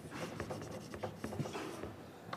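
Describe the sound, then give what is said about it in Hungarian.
Faint, busy scratching of a pen or chalk drawing a pressure diagram on a board during a hydraulics lecture, with quick strokes, taps and scrapes in an uneven rhythm. “Arra jó ez nekem, hogy inkább ide rajzolom,”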